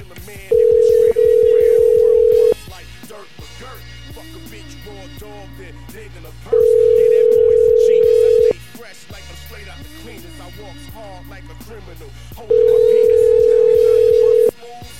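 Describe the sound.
Telephone line tone heard while calling back: a steady, loud, even electronic tone sounding three times, each about two seconds long, with pauses of roughly four seconds between them and other quieter sound in the gaps.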